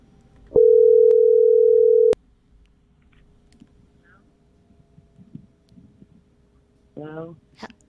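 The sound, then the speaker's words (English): A telephone dial tone sounds as a steady, loud, unbroken hum for about one and a half seconds before a click cuts it off. A quiet line follows, then a brief voice near the end. “We're dialing Dumb Chicks.”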